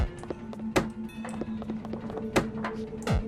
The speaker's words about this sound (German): Aber die klingt auch nicht mehr gesund, oder? Hör mal. Ja, klingt, als würden da Wäscheklammern gewaschen oder so.